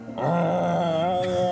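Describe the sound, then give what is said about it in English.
A voice imitates a groan coming from a grove of trees: one long, low, drawn-out moaning groan with a wavering pitch, held for over a second. “You hear another groan coming from a little further up inside the grove of trees.”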